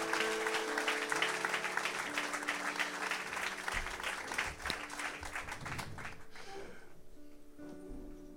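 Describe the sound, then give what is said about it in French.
Congregation applauding the Lord during a French-language church service, a dense wash of clapping that holds strongly for about six seconds, then thins out and dies away into quiet. “Est-ce qu'on peut encore acclamer le Seigneur et prenez place, frères et sœurs”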